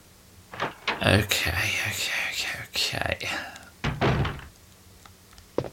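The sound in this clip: A door opening in a Resident Evil video game, a few heavy thunks and knocks spread over several seconds, moderately loud against a quiet background, with one more sharp knock at the end.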